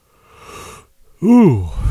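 A person yawns late at night. A soft, breathy draw of air is followed by a loud, drawn-out voiced groan whose pitch rises and then falls.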